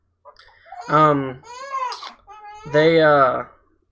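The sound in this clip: A fussy baby girl cries in loud, whiny wails, two longer sobs with a higher, wavering cry between them, heard on their own with no talk over them.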